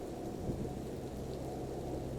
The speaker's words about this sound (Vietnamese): Nhanh lên mày, tranh thủ trời đang mưa lớn